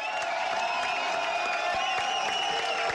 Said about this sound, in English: You can't get this from the audio, but you can see that J Dilla is being wheeled out to the stage with lights and smoke shining down, with fans cheering for him.